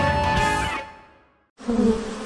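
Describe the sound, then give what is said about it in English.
Wasps buzz around a nest above a front door, a loud, steady droning hum that starts abruptly partway through after an earlier sound fades out. “Honey, did you see that wasp nest above the front door?”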